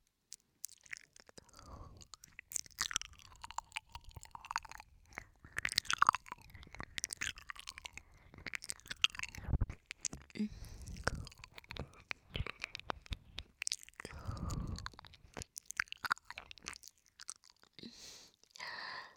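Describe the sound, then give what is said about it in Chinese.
Quiet, close mouth chewing sounds made on a listener's ear in an ASMR session, a long run of many soft, wet smacks, clicks and nibbling bites with irregular rhythm. “老公的耳朵，让我吃一会儿好不好啊？”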